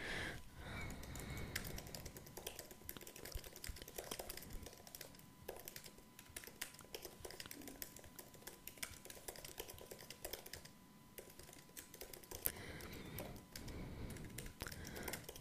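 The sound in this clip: Someone types a question to ChatGPT on a computer keyboard, a long, faint run of many rapid, irregular keystrokes with brief pauses between bursts.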